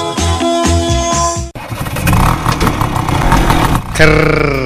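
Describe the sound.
Rough, rattling engine noise from an old scooter, steady and fairly loud for a couple of seconds, coming after a brief burst of tonal music and giving way to more music at the end.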